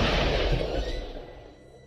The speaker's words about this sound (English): At impact, a small hole was punctured in the tank. According to our experts, the pressure of the collision and the crushing of the gas tank forced gasoline to spew from the gas cap.